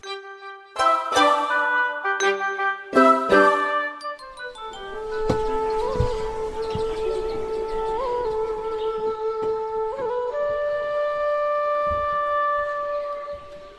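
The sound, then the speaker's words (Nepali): Bamboo flute playing a slow melody. A few short, bright, quickly struck notes open it, then long sustained tones follow with a slight wavering at each change, clear and alone with no talk. “कस्तो मिठो बाँसुरी कसले बजायो”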